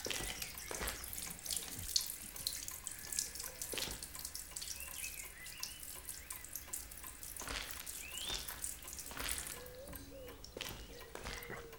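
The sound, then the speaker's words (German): Tap water runs into a sink while strawberries are washed under it, a continuous splashing stream broken by irregular louder gushes and small drips, with no talking. “Die Erdbeeren sehen aber lecker aus. Kann ich schon mal eine haben? Ja, schon gut. Ich wasche euch ein paar ab.”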